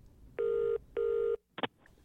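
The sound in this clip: Phone call being placed: two steady, sustained electronic tones of the same pitch in succession, followed by a short pair of clicks.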